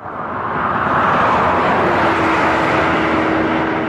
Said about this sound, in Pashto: دا د کلات کوټي چمن ملي سړک دی چې اوس په دې سړک د ساتونو سفر په دقیقو کې تیریږي.